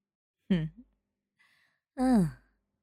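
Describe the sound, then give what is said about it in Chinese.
Deep breathing, heard as two long voiced exhalations like heavy sighs, the second louder and fuller, with a faint breath between them and silence around. “做深呼吸分散注意力，慢慢来。呼吸，呼吸，”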